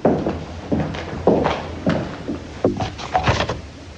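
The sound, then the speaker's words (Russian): Footsteps of a man in a dramatized story, sounding as firm thudding steps in an even rhythm of about one every half to three-quarters of a second, moderately loud, with no talk over them. “Услышав шаги Савельева, Ольга быстро положила путевку на место.”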